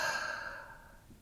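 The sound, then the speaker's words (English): An audible exhale during a guided deep-breathing exercise: a single soft, breathy rush of air that starts fairly strong and fades steadily over about a second. “Two more times, take a deep breath in through your nose. Audible exhale out, let it go.”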